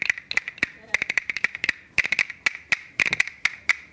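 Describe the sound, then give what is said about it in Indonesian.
Scattered hand clapping for Abah during a session on making bamboo health tools: many sharp, irregular claps in uneven clusters, some louder and some lighter, with short gaps between bursts. “Tepuk dong buat Abah dong.”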